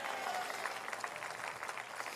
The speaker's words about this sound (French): Que tous ceux qui travaillent disent amen et applaudissez-vous.